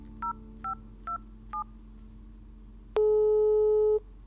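Telephone dialing while calling an 80-year-old man: four short, evenly spaced touch-tone beeps, then a pause and a steady, louder line tone that holds for about a second before cutting off.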